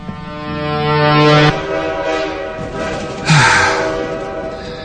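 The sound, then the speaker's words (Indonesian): A train passes along a railway line near a home at night: a sustained, low, harmonic horn-like tone swells and then cuts off, followed by a second loud surge of rumbling noise that fades away. “lagi-lagi suara kereta api yang melintas membuatku terbangun”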